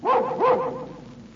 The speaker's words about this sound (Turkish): Köpekler evin etrafında dönmeye başladı.